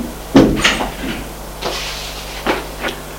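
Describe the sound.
A door opens as someone enters an office: a few sharp wooden clunks and latch clicks, the first loudest and the later ones fainter, spaced irregularly over a quiet background.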